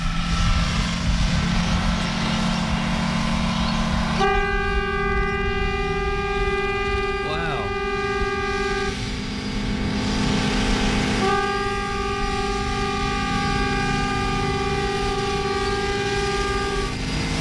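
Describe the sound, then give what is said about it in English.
A train rumbles steadily while its horn sounds two long, sustained blasts, the second after a short gap. The horn is loud and chord-like and sits clearly above the continuous low roar of the moving train. “this is the sound of a train.”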